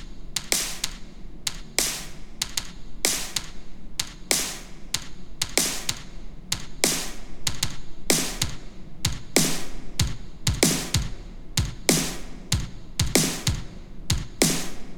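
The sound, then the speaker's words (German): A drum beat plays on its own, with a hi-hat doubling every kick drum hit to brighten it. Many punchy, evenly spaced thumps with crisp high ticks form a steady, repeating rhythm. “Und dazu kommt dann auch noch eine Hi-Hat, die einfach dasselbe spielt wie die Kick, um die Höhen der Kick noch ein bisschen zu verstärken. Und ja, das Ganze klingt dann so.”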